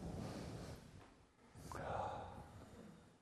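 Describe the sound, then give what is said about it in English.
A church audience taking one deep breath together on cue, heard as a faint, soft rush of air that swells and then slowly fades. “Now, on the count of three, I want you all to take a breath. Ready? One, two, three.”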